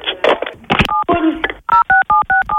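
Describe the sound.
A telephone keypad dials a number to call the police, giving short touch-tone beeps, a quick evenly spaced run of about four near the end, after a stretch of talk.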